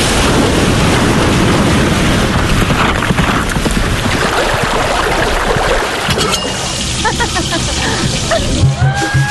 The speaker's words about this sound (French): Ça, c'est le son de la Réunion.